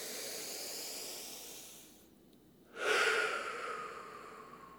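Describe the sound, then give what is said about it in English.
A slow, deep breath in and out with soft, hissing airflow. The breath thins to near quiet before a louder gust of air returns and gradually fades, with no voices. “And let's take one breath to just anchor to this now moment.”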